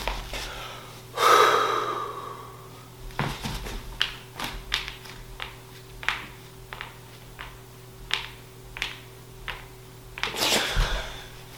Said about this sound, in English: Now, the flip of that, blow out all my air, lungs are empty, see how quickly I get an urge to breathe.